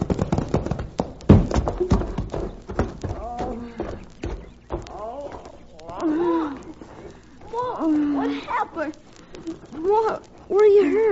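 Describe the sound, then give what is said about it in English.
Horses' hooves galloping on a sun-baked road as a team pulls a wagon, rapid clip-clop beats in the opening seconds, then voices calling out over the fading hoofbeats. “their hooves pounded on the sun-baked road like war-maddened Indians on their drums”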